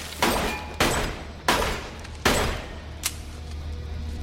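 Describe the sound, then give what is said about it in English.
A gun empties a clip of shots at window glass: four heavy, sharp bangs at a steady pace, each with a ringing decay, then a fifth, weaker report. “as Quinn aims his gun at the glass and empties a clip.”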